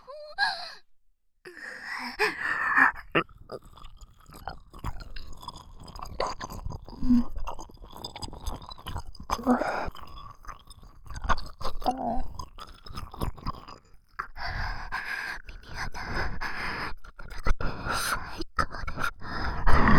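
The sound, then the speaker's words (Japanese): Wet ear-licking and slurping mouth sounds, soft and close, with breathy sighs and gasps woven in. Irregular smacks and drags continue across the stretch, pausing briefly partway through before resuming. “ずっとそのお耳の奥まで舐めたいと思ってたんです。ありがとうございます。それじゃあ舐めさせていただきます。”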